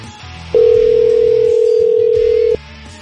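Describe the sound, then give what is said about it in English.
A telephone tone sounds as a steady, unbroken mid-pitched hum. It holds for about two seconds and then cuts off abruptly, with quieter low background sound before and after. “Sorry about my slow dialing.”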